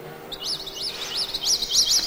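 Birds chirp in a run of repeated high, quick rising-and-falling tweets that grow slightly louder and closer together toward the end, alone with no voices.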